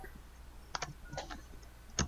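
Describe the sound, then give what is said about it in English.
Sparse typing on a computer keyboard: a few light key clicks in small clusters separated by pauses, faint against a quiet background. “I can't just type Margaret into IMDb.”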